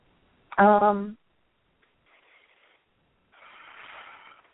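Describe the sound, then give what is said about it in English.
A person takes a big deep breath: a short voiced sound comes first, then two soft, breathy rushes of air, the second longer and fuller. “I don't know if you heard me take that big deep breath, but that's a huge thing I do.”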